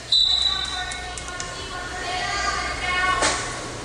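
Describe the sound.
A volleyball bounced a few times before a serve in a Fort Recovery match, dull thuds heard beneath a voice talking.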